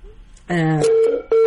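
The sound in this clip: Telephone line tones ring through on an incoming call to a radio call-in show, sounding as sustained electronic pitched tones that shift to a single steady beep and then return.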